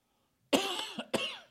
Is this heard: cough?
yes